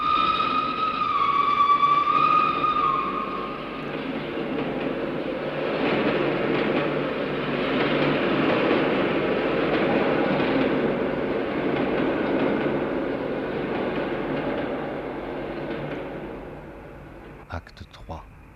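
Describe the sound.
Trains at a railway station at night: high whistle-like tones open, then a long steady rumble of rolling rail cars that fades, closing with a few sharp clicks.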